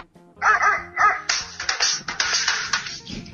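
A dog barks and yips in a quick, loud run of sharp calls that come faster and closer together in the second half.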